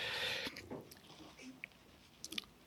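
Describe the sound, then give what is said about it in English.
Faint, soft munching of alpacas feeding, with irregular crunching and wet chewing sounds and a few scattered sharper clicks over a quiet background. “Sound of alpacas feeding. That's what all that noise is.”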